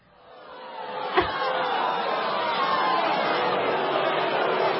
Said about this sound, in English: Do we have a reaction from the live studio audience back in Minneapolis?